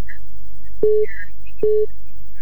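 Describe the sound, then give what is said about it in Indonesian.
Telephone line tones sound while a caller is being dialed: two short, steady, mid-pitched beeps, each starting with a sharp click, separated by a gap of faint line hiss. “Saya akan menelpon berikutnya yang sudah bergabung.”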